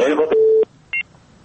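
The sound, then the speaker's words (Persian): A radio call-in line cutting off: a voice at the start gives way to a long, steady telephone tone, then a short, higher dual-tone beep and a faint trailing blip. “فکر کنم تماستون قطع شد با ما.”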